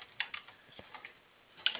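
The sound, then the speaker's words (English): Typing on a computer keyboard, a handful of soft, irregular key clicks that are quiet and heard on their own. “Sorry, I typed slow.”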